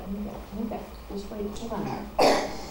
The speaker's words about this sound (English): Got a nasty little cough. Got a really nasty cough, huh?